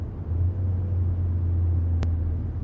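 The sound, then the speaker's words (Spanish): A car drives along with a steady, low engine-and-road rumble that holds even throughout, broken once by a brief sharp click near the end. No voices are heard. “Al poco van los tres en el coche.”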